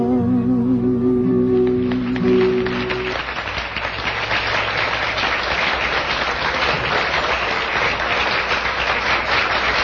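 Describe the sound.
An audience applauds a singer's stage performance as the song's sustained final notes end, breaking into loud, dense, continuous clapping that holds steady for the remaining several seconds.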